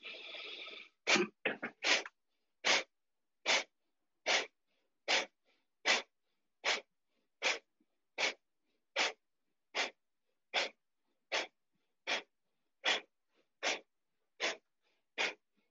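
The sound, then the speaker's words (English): Rapid, forceful breathing in and out through the nose during a breathwork exercise: many sharp, hissing nasal bursts, a few quick ones at first, then a long evenly spaced series at a steady rhythm with silence between. “And we're going to start with inhaling and exhaling through our nose only. You should feel a snap of your belly with each inhale and with each exhale.”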